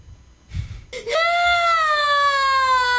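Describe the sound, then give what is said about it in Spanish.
A child cries in a video being played: after a brief rustle, a loud, sustained high wail sets in and holds with a slightly falling pitch to the end. “Ahí está llorando el niño porque pues no le sale bien”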